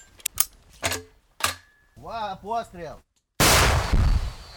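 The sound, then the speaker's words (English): An anti-tank rocket-propelled grenade is fired at troops on a front line in Ukraine: a few sharp clicks and a short voiced shout come first, then a sudden, loud, harsh roaring blast sustains to the end. “They fire an anti-tank rocket-propelled grenade unconventionally at Russian troops a mile and a half away.”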